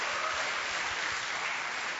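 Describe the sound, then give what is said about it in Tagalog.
An audience applauding during a church service: dense, steady clapping that holds at an even level throughout without a break. “Akin yan! Palakpakan natin ang Panginoon.”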